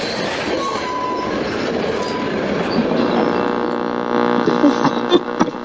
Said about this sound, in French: un convoi ferroviaire, comme il en passe tous les jours dans la municipalité, arrive au passage à niveau, en plein cœur du village